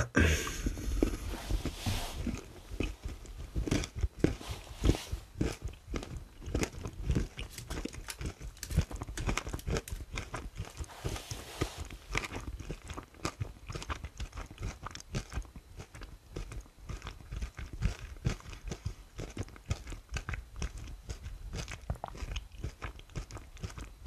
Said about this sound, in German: Und wir essen noch den Rest.